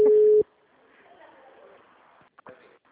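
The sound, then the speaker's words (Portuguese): A telephone busy tone after a dropped call: one short, steady, mid-pitched beep that cuts off abruptly, followed by faint talking. “é o Alisson, acho que caiu a ligação, né? Ai, filho, caiu até, eu não sei mexer direito.”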